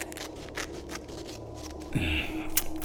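Cutting as a small hole is made in a wrapped present: a run of short, crisp snips and rustles, then a heavier bump and scrape toward the end.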